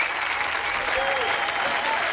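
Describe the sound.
An audience cheers and applauds after a live song, a thick, steady roar of clapping hands mixed with crowd noise at an even level throughout.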